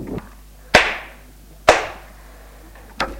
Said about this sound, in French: En le voyant, elle se lève. Et le gifle.